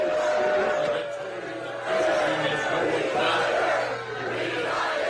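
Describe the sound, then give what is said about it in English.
A crowd shouts and jeers loudly at a political speech by Mitch McConnell in Kentucky. The dense, continuous noise of many voices holds throughout, easing briefly twice before surging back. “This is the reaction he got from his supporters out in Kentucky over the weekend when he was trying to give a speech.”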